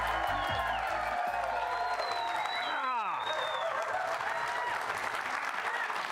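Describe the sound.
A studio audience in Studio C at BYU in Provo, Utah, applauds and cheers to welcome the host of a BYU football show: loud, dense clapping mixed with whoops that holds steady from start to finish.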